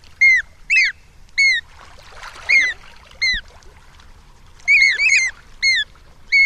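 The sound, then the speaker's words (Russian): Australian magpie with a strange flute-like voice: short, clear whistled notes rich in overtones, repeated in irregular bursts, some in quick pairs, over faint background hiss. No talking. “И вот эта вот австралийская сорока, у нее странный флейтовый голос.”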